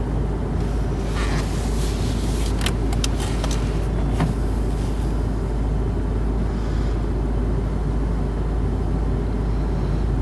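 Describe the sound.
Car engine pulling away from a petrol station pump: a steady, loud low rumble with a few brief higher clicks and scrapes partway through.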